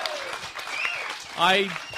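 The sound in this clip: Studio audience applause as a sound effect, a crackling wash of clapping heard under people talking, swelling briefly near the end.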